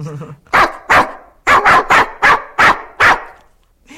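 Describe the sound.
A human voice imitates a Brittany spaniel's barking: eight sharp, loud bark-like yelps, some spaced apart and some in quick pairs, with a few breathy vocal sounds before them.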